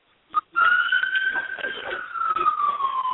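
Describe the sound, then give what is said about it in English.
An emergency vehicle siren wails as it passes outside: a steady, high, sustained tone that slowly sinks in pitch toward the end, after one brief short sound at the start. “Hold on. I got somebody with a siren there. Somebody call the police or something?”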